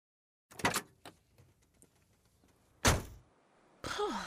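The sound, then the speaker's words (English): A gate is opened: a sharp thunk, quiet shuffling, a second heavy thud, then a sustained noisy scrape with a creaking tone at the end. “Please, can you open the gate for me”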